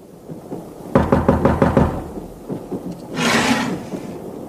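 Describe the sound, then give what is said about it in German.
Knocking on a compartment door in a railway sleeping car of the Balkan Express: a rapid series of sharp wooden knocks, followed after a pause by a brief rushing noise. “Ich ging zurück und klopfte an die Tür meiner Freundin.”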